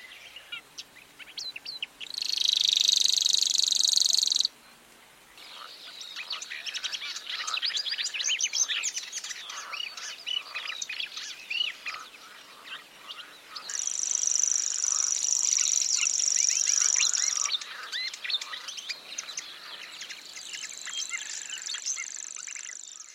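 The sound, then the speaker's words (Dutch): A grasshopper warbler delivers its reeling song in coastal dunes: a high, insect-like mechanical trill held without a break in three long stretches, with varied chirping from other birds in between. “Een zomergast in deze duinenpartij is ongetwijfeld de sprinkhaanzanger, een zangvogeltje met een ingebouwde wekker. En dat klinkt zo.”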